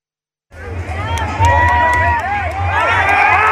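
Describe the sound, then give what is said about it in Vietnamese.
Football fans celebrating in the Hanoi streets around My Dinh stadium after Vietnam's ASEAN Cup win, carrying flags and wearing team shirts. A loud crowd roar of shouting and cheering voices bursts in after a moment of silence and holds steady. “Hàng nghìn cổ động viên mang theo cờ Tổ quốc, khoác áo đội tuyển cùng nhau hô vang Việt Nam Hồ Chí Minh,”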